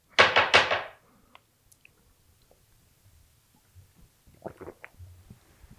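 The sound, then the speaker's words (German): Loud swallowing while drinking a not fully chilled drink: a quick burst of a few heavy, wet gulps in the first second, then near silence with faint small mouth and throat sounds and a few soft thuds toward the end. “Ich habe gelesen, dass sich Leute über die sehr lauten Schluckgeräusche beschweren. Ja. Ich glaube, bei mir war eben gerade wieder sehr laut.”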